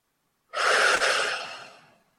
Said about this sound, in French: Et maintenant les deux ensemble, par le haut et le bas, on expire, on inspire.